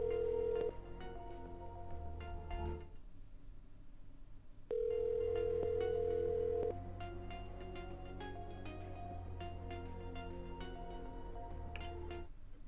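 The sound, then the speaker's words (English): Telephone dialing tones while placing a call from a blocked number: steady electronic tones, then a brief quiet gap, then a longer tone and a run of short beeps. “Alright, I'm going to call from a blocked number.”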